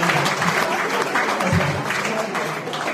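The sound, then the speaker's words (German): Audience applause rings out at a thank-you segment, a steady, dense wash of clapping that holds at an even, loud level for the whole stretch without a break and with no voice heard over it. “Dein Applaus.”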